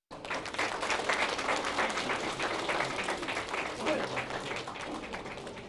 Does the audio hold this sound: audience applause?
yes